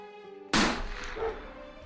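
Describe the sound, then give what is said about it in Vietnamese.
A single warning gunshot fired into the air by police and border guards, a sharp loud crack cutting in after a steady tonal hum, then a lingering rumbling decay. “Là cảnh sát và bộ đội biên phòng, có cả tiếng súng bắn chỉ thiên và tiếng của chó nghiệp vụ.”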